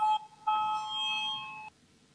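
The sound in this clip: An electric bell rings to call a vote in a parliament chamber: a short ring, a brief gap, then a longer steady ring of about a second that cuts off sharply, leaving near silence.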